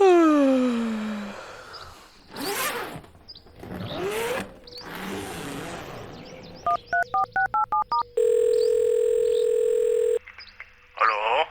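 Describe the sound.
A telephone being dialed to call a biologist at the Museum für Naturkunde Berlin: after some vocal sounds, a quick run of about seven keypad beeps is followed by a steady electronic tone lasting roughly two seconds.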